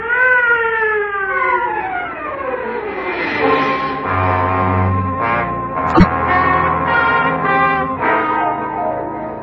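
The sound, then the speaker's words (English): An ambulance siren wails continuously. Its tones slide downward over the first few seconds, then hold a steadier, layered pitch over a low rumble, and one sharp click cuts in briefly midway. “Clear the way for the ambulance. The ambulance.”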